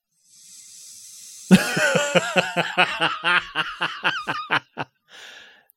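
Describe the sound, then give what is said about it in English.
A loud hissing inhale lasts about a second. A burst of snickering laughter follows in many quick pulses, then one last faint breath. “He just did a face and inhaled loudly.”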